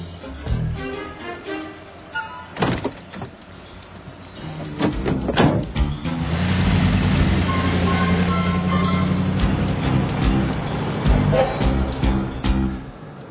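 A car drives with passengers inside, its engine a steady low rumble that swells and holds through the second half, after a few knocks and thumps near the start.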